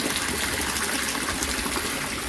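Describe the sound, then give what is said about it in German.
Splashing water from a fountain standing in the middle of an abbey courtyard, a steady, even rush and patter of falling water that carries on unbroken throughout, with no voices. “Genau, das kühle Plätschern, das kommt von dem Brunnen, der mitten im Stiftshof steht”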